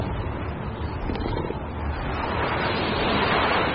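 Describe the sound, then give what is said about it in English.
Wind blowing hard in a constant, rushing roar that fills the whole stretch and swells slightly toward the end, with no voices. “Guys, we gotta get this kid out of the wind!”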